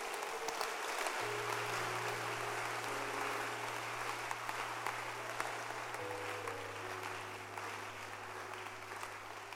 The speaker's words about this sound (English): Clap your hands for God.